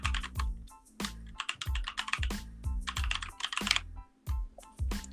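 Typing on a computer keyboard: irregular bursts of sharp key clicks with short pauses between runs, fairly faint and with no voices.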